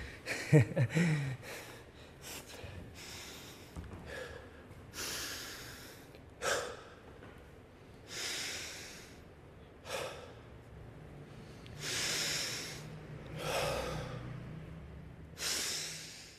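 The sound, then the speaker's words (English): Deep, heavy breathing after physical exertion: a person takes slow, repeated inhales and exhales, many breaths in a steady rhythm, faint and airy with no talking. “3 big deep breaths. That's all you need. When you're in shape, of course.”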